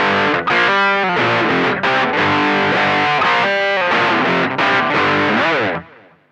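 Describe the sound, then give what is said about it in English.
Heavy rock guitar riff in an odd 5/8 time, heavily distorted, chugging loud and steady with a few brief breaks between phrases, then ending on a final chord that cuts off and decays. “No, that's a heavy rock riff.”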